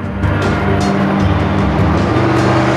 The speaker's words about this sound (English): Four Humvees come tearing across the dusty desert track, producing clouds behind them.